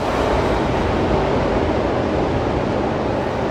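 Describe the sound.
Ocean waves wash onto the shore in a continuous, full rushing roar, dense and even throughout with no clear breaks and no voices.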